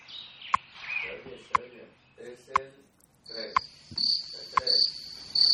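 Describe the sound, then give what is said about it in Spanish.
Crickets chirp thin and high, growing more prominent later, beneath a person talking, while short beeps sound at an even once-a-second pace. “Ahí escuchamos a los grillitos de Radio Hora.”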